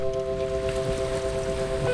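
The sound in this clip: Steady drone on board a schooner at sea after a dive: a low, humming tone holds under soft wind and water noise, with no voices.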